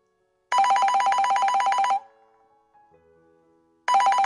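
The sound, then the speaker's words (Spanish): A telephone rings in a kitchen with an incoming call: one long, loud electronic trilling ring, then a quiet gap with faint tones before the next ring begins. “se encontraban en la cocina y recibieron una llamada inesperada de su sobrino Francisco.”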